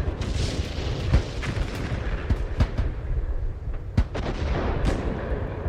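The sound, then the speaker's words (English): Wartime artillery guns firing, several heavy booms spread irregularly over a constant rumbling, noisy background, with no voices. “So these are their artillery guns firing.”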